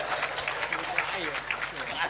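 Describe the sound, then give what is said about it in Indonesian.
An audience applauds with a patter of scattered claps while people keep talking over it, the clapping moderately loud and uneven. “Oke, tepuk tangan untuk si tukang sablon.”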